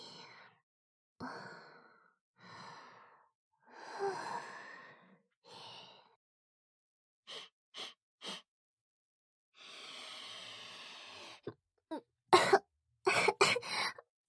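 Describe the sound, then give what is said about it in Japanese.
Coughing and choking after breathing in a strong smell: breathy sighs and exhalations at first, then short, sharp coughs that grow denser and louder toward the end, with no talking. “すみません、フェロモンでむせてしまいました。”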